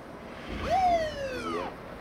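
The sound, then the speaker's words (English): A police car's siren gives a single brief whoop, rising quickly and then sliding down gradually. Underneath it runs a low, steady road rumble. “A police car passes them, then stops.”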